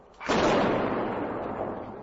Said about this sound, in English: The exercise was designed to simulate an explosion